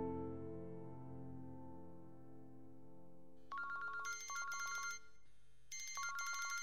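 A mobile phone rings in a pocket: a bright, repeating electronic ringtone of quick high beeping phrases starts midway, following a low sustained hum.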